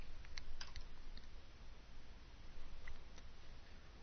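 Computer mouse clicks while uploading a video, a few faint, sharp clicks scattered over a low steady hum.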